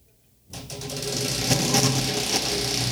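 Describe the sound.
A prize wheel is spun for a giveaway winner. After a brief silence, a rapid, dense ticking clatter starts suddenly and keeps going steadily, fairly loud, until the end.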